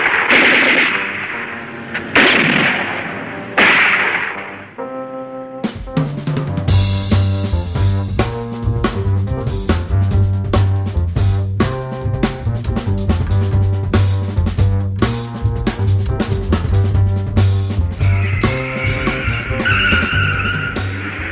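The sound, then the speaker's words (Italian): Repeated gunfire in a standoff with armed robbers: many sharp, cracking shots in bursts, mixed with squealing tires over a sustained tonal background that follows a louder opening passage. “Non sparate! Ci arrendiamo! Spara, spara, che aspetti?”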